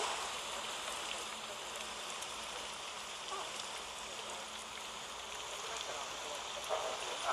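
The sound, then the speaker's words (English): Rain starting to fall outdoors during a film shoot: a steady, even hiss of dense patter that holds throughout, with a few slightly louder drops near the end. “Stop the filming. It's starting to rain.”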